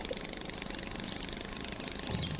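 A small putt-putt engine drives a river boat, heard as a steady, unbroken drone with a bright hiss above it that holds at a constant level throughout.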